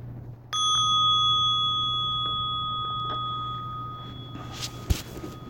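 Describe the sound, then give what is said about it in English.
A bell is rung once to end a meditation session, giving a bright, sustained tone that rings on and slowly fades over several seconds above a faint low hum. “listening for the sound of the bell to open your eyes.”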